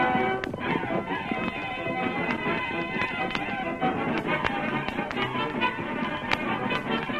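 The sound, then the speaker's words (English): Horses gallop hard toward an army post, their hoofbeats a rapid, continuous patter of sharp taps that stays loud and busy throughout over a dense layer of sound. “Riding hard, the Lone Ranger and Tonto headed for an army post several miles away.”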